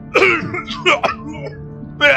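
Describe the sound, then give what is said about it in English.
A voice imitates a stuffed monkey's cough during a tabletop fantasy role-playing game: a few short, raspy, throat-clearing bursts. A final voiced burst follows after a brief pause. “He opens his mouth to say something, and then he coughs.”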